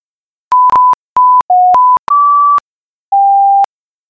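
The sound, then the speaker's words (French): Loud, pure electronic beeps sound in a quick string, short and longer tones at a few different pitches, separated by silence, with one final beep after a longer pause. “Est-ce que tu peux réduire le son des beeps? Ça fait vraiment mal aux oreilles.”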